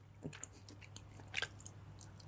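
Faint chewing and biting on something tough to get into the mouth: soft, wet, crunchy bites in an irregular rhythm, quiet throughout, with a louder crunch at the end.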